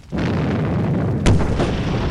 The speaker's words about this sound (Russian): Очередная серия взрывов прокатилась по поместью. Вспышки озарили ночное небо.